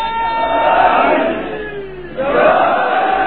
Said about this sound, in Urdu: بڑا دور سے مشرقی پاکستان سے نعرہ آیا ہے اور مغربی پاکستان والوں نے جواب نہیں دیا، جواب دو